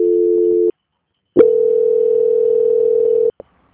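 A telephone line tone while a call is transferred: a short steady tone, a pause, then a longer unbroken tone ending in a sharp click.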